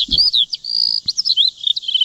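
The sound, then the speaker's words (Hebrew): Birds chirping and singing in a steady run of quick, high, sweeping chirps that overlap one another throughout, with a brief low thump early on and no voices. “בוא נעשה הפסקת ציפורים קטנה. חבר'ה, הפסקת ציפורים, בבקשה.”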